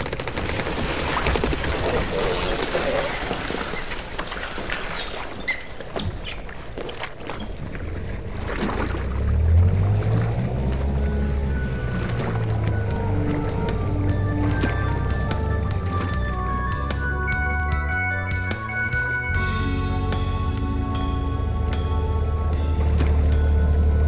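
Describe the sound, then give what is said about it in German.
A motorboat engine runs on water as the boat heads out toward a ship, giving a steady churning rumble with splashy noise. Music enters in the later half and plays over the engine. “dann lass uns jetzt mit dem Motorboot zur Montana fahren.”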